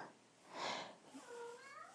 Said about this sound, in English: And I hear my cat wanting something